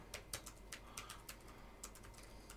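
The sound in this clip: Fingers type a search on a computer keyboard in a quick, irregular run of many faint, crisp key clicks with short pauses between bursts, and no one speaks.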